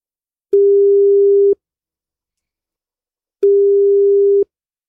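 Ringback tone on a telephone line while a listener's number is being called: two long, steady, mid-pitched beeps, each about one second, separated by a stretch of silence.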